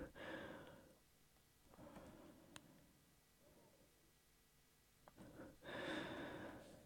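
Heavy breathing from someone who has just rushed on a bike ride: a few forceful, gasping breaths and exhales in uneven bursts, separated by quieter pauses, with the loudest huff at the end and a faint level overall.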